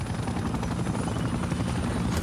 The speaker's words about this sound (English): Matt brings the helicopter down